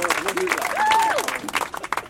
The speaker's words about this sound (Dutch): Dus ook graag een heel groot applaus.